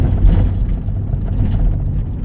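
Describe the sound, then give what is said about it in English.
A car driven carefully on the road gives a steady, low engine and tyre rumble that holds at an even loudness throughout, with no voices over it. “Well, as you may hear from this, and I'm driving very carefully,”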